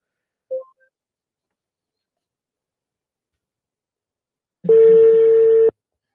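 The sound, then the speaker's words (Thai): A telephone call being dialed: a faint short click, a pause of silence, then a single steady electronic tone lasting about a second. “งั้นเดี๋ยวขออนุญาตโทรเลยแล้วกันนะฮะ”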